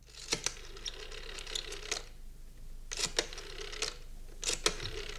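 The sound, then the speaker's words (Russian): A telephone receiver is lifted in an office, giving a handful of sharp clicks and clattering rattles in scattered bursts over a faint, steady hiss. “Тихо, кто-то крадется. Вошел в канцелярию, снял трубку.”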